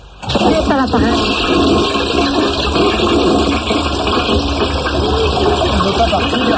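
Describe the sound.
A toilet flushing, with a loud, continuous rush of water that surges in almost at once and keeps churning at a steady level.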